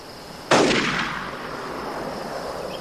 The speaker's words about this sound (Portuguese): Na gente de novo. Droga, atira pra todo lado